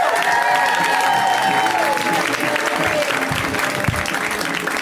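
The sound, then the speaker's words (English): Audience applause for a comedian being introduced: loud, continuous clapping from a crowd with some cheering mixed in, holding steady throughout. “Let's hear it right now for Jackie Cation. Give it up for Jackie.”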